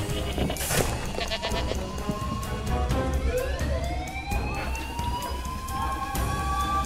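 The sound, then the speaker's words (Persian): Sheep bleating in short repeated calls, mixed with a loud, steady wash of noise and the rising wail of an alarm siren sweeping upward through the second half. “آه ببین چه گوسفند بامزه ای”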